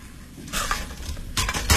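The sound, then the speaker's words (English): Cooking pots being handled and set down, giving a few short metallic clanks and knocks in quick bursts, moderately loud, with no talking. “These are my pots, right? I'll leave you this one.”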